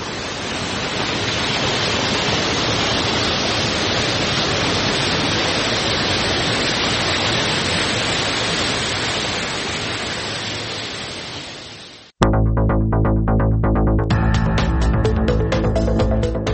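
Water flows steadily at the Mazar Baba spring in Uruzgan, Afghanistan, a dense, even rushing hiss held for about twelve seconds before it cuts off abruptly and gives way to a different, tonal sound.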